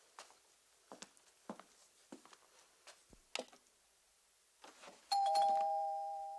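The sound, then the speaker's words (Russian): An apartment doorbell rings once in the morning, a sustained electronic tone that slowly fades. A few quiet taps and footstep-like knocks come before it, and no one speaks. “Звонок в дверь. Андрей нехотя идет открывать.”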